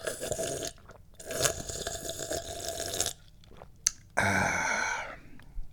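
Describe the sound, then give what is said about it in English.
Sipping tea: several noisy slurping bursts separated by short pauses, ending with a longer wet gulping sound. “That's so good. I love drinking yummy tea.”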